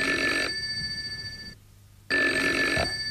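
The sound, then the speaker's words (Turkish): A telephone bell rings loudly in two long, rattling bursts separated by a short pause, with no voices alongside. “Ah, telefon.”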